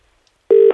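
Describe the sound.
An outgoing call to an amusement arcade in Scarborough produces a telephone ringing tone: after near silence, a single steady, mid-pitched electronic tone cuts in abruptly.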